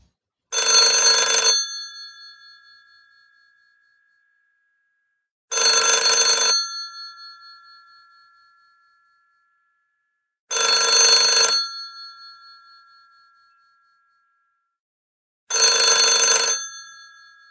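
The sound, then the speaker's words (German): A telephone rings four times with no other sound, each ring a loud bell burst of about a second that fades out. The rings repeat at a steady interval of about five seconds. “Harald ruft bei Chlodwig an und was das mit Finsternis zu tun hat, das hören wir gleich.”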